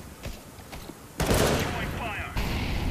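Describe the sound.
Gunfire in a counter-terrorist shooter video game: a few faint shots are followed by a sudden, much louder burst of rapid fire, and then another loud volley near the end.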